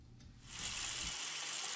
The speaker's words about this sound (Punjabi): ਟੂਟੀ ਤਾਂ ਬੰਦ ਕਰ ਦੋ, ਐਂ ਪਾਣੀ ਵਗੀ ਜਾਂਦਾ। ਹਾਂ ਟੂਟੀ ਨਹੀਂ ਬੰਦ ਹੁੰਦੀ ਧੀਏ